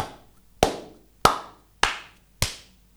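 Hand claps close to the microphone: a steady, evenly spaced series of sharp, loud claps, each followed by a short decaying ring, with quiet between them.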